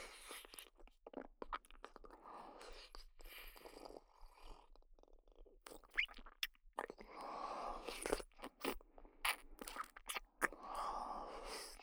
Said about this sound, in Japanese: そのまま目閉じて、ちょっと聞いてて。行くよ。いただきます。